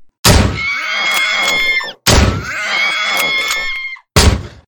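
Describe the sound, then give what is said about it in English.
Three loud gunshots, each a sharp bang followed by a long ringing tonal tail lasting close to two seconds, the third shot cut off shortly after it fires. “Well, how about I just shoot it? Let's just see what happens.”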